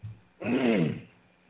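A single cough from a tickle in the throat: one short, voiced burst that falls in pitch and fades quickly, heard alone against near silence.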